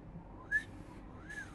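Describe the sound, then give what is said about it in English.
Inward whistling: two faint, breathy whistled notes, each a brief rising-then-falling glide, separated by a short gap over steady background hiss. “That's inward. Maybe I was a bit far away from the microphone for that. Yeah. Whistling doesn't really work on microphones.”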